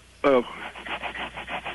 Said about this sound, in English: I'm rubbing my ass on the carpet. Oh, nice. Because I got an itch.